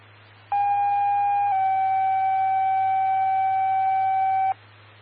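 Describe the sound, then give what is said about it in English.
Dispatch paging tones before a carbon monoxide alarm call: one steady electronic tone held for about four seconds, shifting slightly in pitch after the first second, over a constant low hum. “Stand by for carbon monoxide alarm page, G27 Martin Luther King.”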